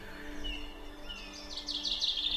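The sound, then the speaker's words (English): A family of young goshawks calls near the nest after leaving it: a few faint, high, thin squealing cries over a low steady hum, growing clearer toward the end. “This is probably the last time I'm going to see this particular year's family of goshawks before they go.”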